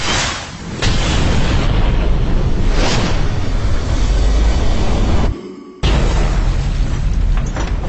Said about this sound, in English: Retro rockets are next in 3 seconds. 2, 1.